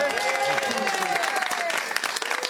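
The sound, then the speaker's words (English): Applause from a comedy audience as a comedian is welcomed onto the stage: dense, continuous clapping with voices audible in the crowd. “Would you please welcome Janty Blair?”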